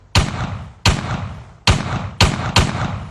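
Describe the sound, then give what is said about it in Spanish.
Five gunshots ring out in a radio drama, each a sharp, loud crack with a short decaying tail. The shots come at uneven intervals, the last two close together. “¿Qué fue eso? Alguien tiene un arma.”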